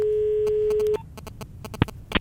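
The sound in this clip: One long ringback tone of an outgoing telephone call: a steady, mid-pitched hum lasting about a second, then it cuts off and leaves soft clicks and scattered blips.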